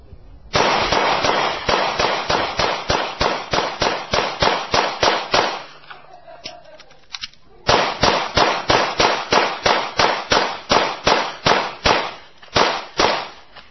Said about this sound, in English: In 12.3 seconds, that is the sound of 31 rounds being pumped through a New York City